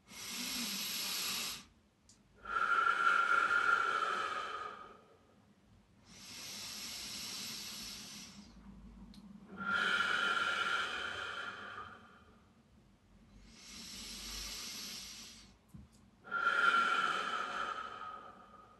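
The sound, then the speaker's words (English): Three deep breaths taken during a guided crystal meditation, heard as six long, airy, hissing surges of breath with short pauses between them, with no other sound. “Close your eyes, take 3 deep breaths.”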